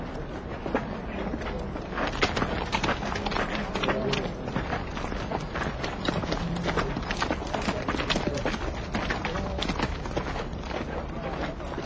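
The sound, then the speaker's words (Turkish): Horses' hooves clip-clop loudly in a rapid, continuous rhythm, with many closely spaced, overlapping strikes that hold a steady level throughout. “En iyisi atları burada bırakalım.”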